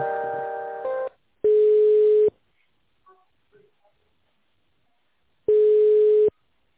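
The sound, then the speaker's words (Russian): Telephone line tones sound while an office call is transferred to another department. A brief buzzy tone opens, followed by two long, steady beeps separated by near-silence with a few faint clicks. “Секундочку, я соединю вас с финансовым отделом по данному вопросу.”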